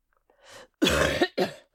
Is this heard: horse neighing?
no